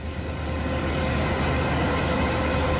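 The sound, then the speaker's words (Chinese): Combine harvesters working at full power in a golden cornfield give a dense, continuous mechanical roar. The broad rumbling drone holds an even loudness throughout, with no breaks and no voices. “收割机正开足马力作业，转运车辆紧随其后”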